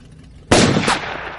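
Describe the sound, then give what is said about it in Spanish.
A single gunshot as a man in a denim jacket shoots a driver: an abrupt, loud blast followed by a rough, decaying tail. “El de la chaqueta vaquera dispara al conductor.”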